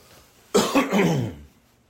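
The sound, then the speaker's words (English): A single throat clearing and cough: a sudden harsh burst, then a rough, raspy rumble that trails off after about a second, heard alone with no talking. “I apologize for all of these little throat clearings and whatnot.”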